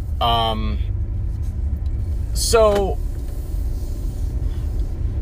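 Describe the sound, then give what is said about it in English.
A car drives on the road with a steady low rumble running throughout, while a voice speaks in two short bursts over it. “I'm not driving home from work. I'm kind of driving on some errands”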